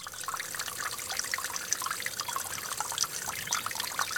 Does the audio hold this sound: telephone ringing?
no